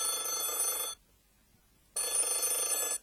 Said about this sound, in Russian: тут в прихожей раздался телефонный звонок.